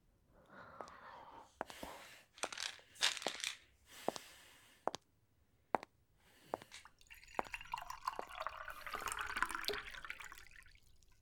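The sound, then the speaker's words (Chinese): Water is poured into a glass, quiet and soft. A few scattered taps and clicks come first, followed by a longer, steady splashing trickle in the second half. “水给你倒好了，自己吃，立刻马上。”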